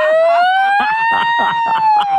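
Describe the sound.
A voice imitates an ambulance siren with one long, wavering wail that climbs slowly in pitch. Other voices talk or laugh over it.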